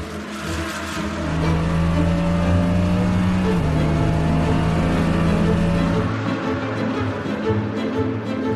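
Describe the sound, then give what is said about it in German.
Racing cars, among them a Ferrari and a Mercedes, roar off at a race start: a loud, dense engine drone with sustained revving tones that shift in pitch, easing somewhat after about six seconds. “Doch noch vor der ersten Runde presste Lawson seinen Ferrari mit einem sehenswerten Manöver am Mercedes von Ellis vorbei.”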